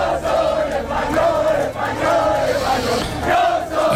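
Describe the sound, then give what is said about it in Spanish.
Huge crowds of euphoric football fans chant and roar in the streets, celebrating Spain's World Cup victory and its second star. The loud massed voices rise in a steady, repeated chant rhythm. “El ruido de decenas de miles, de cientos de miles de aficionados eufóricos por la victoria de España en el Mundial, por esa segunda estrella que hay que bordar ya en las camisetas.”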